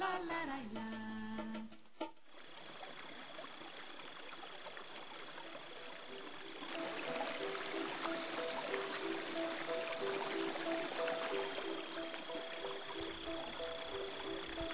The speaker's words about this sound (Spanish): Bendita agua. El agua es un elemento muy importante en el ciclo de la vida.